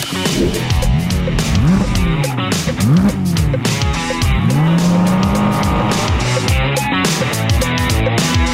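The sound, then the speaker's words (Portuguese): Porsche 718 Cayman GT4 RS accelerating hard on a race track, its loud engine revving up in repeated rising sweeps between gear changes, continuous and alone without talk. “Bom, vamos começar nosso test drive então com 718 Cayman GT4 RS. É um carro de corrida mesmo, por isso ele está numa pista de corrida para acelerar forte.”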